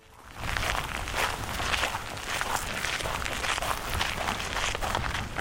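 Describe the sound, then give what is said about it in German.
Footsteps walking along a path that divides a rural property in Portugal, heard as a steady, dense crunching texture that continues throughout with no clearly separated steps. “läuft über einen Weg, der ihr Grundstück teilt.”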